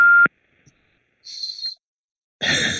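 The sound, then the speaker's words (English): An answering machine beep sounds as one short, steady high tone, set between other brief noises on the line. “Please leave your message after the beep.”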